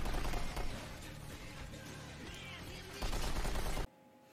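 Rapid gunfire from an unfinished video game, a dense, loud stream of overlapping shots that runs almost without pause before cutting off abruptly near the end.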